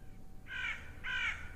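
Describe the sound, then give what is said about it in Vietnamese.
A crow cawing in a graveyard: two harsh, rasping caws in quick succession over a faint, steady background hush. “là một con quạ bay vụt lên từ cuối nghĩa địa rồi kêu lên những tiếng nghe ghê rợn.”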